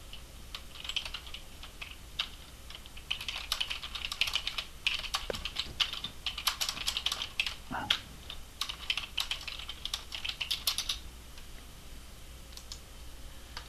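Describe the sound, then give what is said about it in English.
Typing on a computer keyboard: many quick, irregular keystroke clicks run steadily throughout, fairly soft, with no voices over them. “I better type it.”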